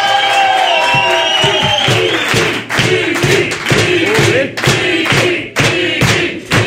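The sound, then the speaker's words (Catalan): Audience applause and cheering from a crowd welcoming a guest onto a stage, a dense, loud wash of clapping with shouts and whoops running steadily throughout, broken by brief dips in intensity. “Home, rebem amb un fort aplaudiment a Miqui Núñez!”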